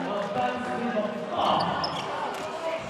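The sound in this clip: A basketball is dribbled during a college basketball game, with quick bounces against the court under a steady wash of crowd noise.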